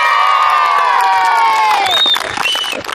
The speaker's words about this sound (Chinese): 奔跑、呐喊，沙车县喀群乡中心小学的足球场上十分热闹。